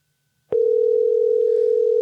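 A telephone tone sounds on an outgoing call to a business that may be closed. After half a second of silence, a loud, steady, single-pitched tone starts abruptly and holds unbroken to the end.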